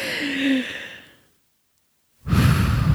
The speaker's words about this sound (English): You need to take a deep breath. I know. take one right now.